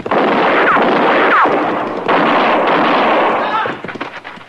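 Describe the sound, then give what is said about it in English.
Gunshots ring out in a Western scene, with two loud, sharp blasts a couple of seconds apart, each followed by a long, rumbling decay. “Hey, he's got a gun in his hand.”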